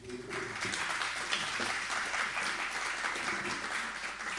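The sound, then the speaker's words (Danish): Audience applause giving a big hand to event participants, a dense, steady wash of clapping that holds at an even loudness for about four seconds with no distinct voices. “Ja, I må gerne give dem en stor hånd.”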